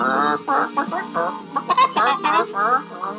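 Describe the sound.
Hens clucking in a coop, a busy run of short warbling, chattering calls that rise and fall in quick succession for about three seconds without pause.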